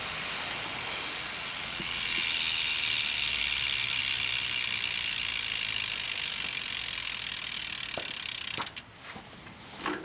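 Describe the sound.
A Peugeot electric full-suspension mountain bike with hydraulic disc brakes ticks through its rear cassette freewheel in a fast, continuous ratcheting whir that grows louder after a couple of seconds, then cuts off near the end with a few sharp clacks.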